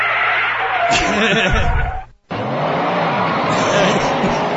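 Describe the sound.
A car driving sound effect: a loud, steady roar of engine and road noise that cuts out briefly about halfway through, then resumes just as strongly.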